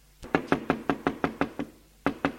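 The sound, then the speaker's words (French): Knocking on a house door: a quick, evenly spaced run of sharp knuckle raps, then a brief pause and a few more knocks, crisp and fairly loud against near silence. “Un jour frappe à la maison un marchand ambulant.”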